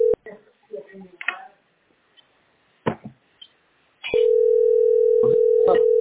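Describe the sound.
A telephone line tone sounds while a call is being placed: a steady, flat, loud tone that starts about two-thirds of the way in and holds to the end. A few brief clicks and noises come before it.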